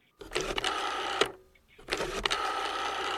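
A telephone number being dialled: two bursts of rapid mechanical clicking and whirring separated by a short pause, fairly loud.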